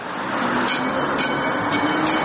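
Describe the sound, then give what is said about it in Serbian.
Rolling rumble of a replica of Sarajevo's first electric tram from 1895 running on the city's rails, a steady low rumble with a few faint, high-pitched swishes recurring on top. “Replika prvog električnog tramvaja iz 1895. godine ponovo je na šinama grada Sarajeva. Ušla sam u ovaj tramvaj, nikad u njemu nisam bila.”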